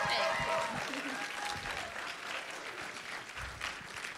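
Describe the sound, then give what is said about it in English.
Audience applause at a church service welcoming a guest speaker. Many hands clap steadily, fairly loud at first and then easing slightly over a few seconds. “I'd like you just to stand to your feet this morning, put your hands together”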